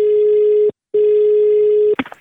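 A telephone line tone sounds as a call is placed for a prank phone call: a loud, steady pure beep, a short break, a second long beep, then a cluster of quick clicks at the end.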